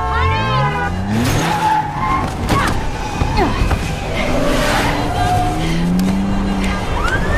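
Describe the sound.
Tires squeal as a car skids while being driven erratically, with repeated sliding, wavering squeals over a continuous rough engine roar throughout.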